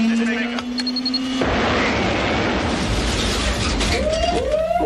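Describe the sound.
A crash-test collision in which the airbag failed: a steady tone is cut off by a sudden loud crash that becomes a sustained, rough clattering roar, and a voice comes in near the end.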